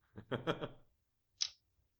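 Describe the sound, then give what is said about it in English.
A single faint, sharp mouse click on a chat icon rings out after a brief muffled sound, with quiet around it. “Click on the chat icon.”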